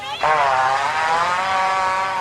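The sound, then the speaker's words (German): A rhinoceros lets out a long fart: a buzzy, low, harmonic drone that starts abruptly and holds fairly steady for about two seconds. “Welches ist denn das Video, das Sie in der langjährigen Beschäftigung mit dem YouTubium am meisten persönlich berührt hat? Ganz klar, der Nashornfurz.”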